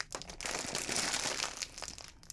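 A crinkly plastic chip bag being handled and tugged at in a struggle to open it: a dense run of sharp crackling rustles that swells in the middle, then trails into a few scattered crinkles.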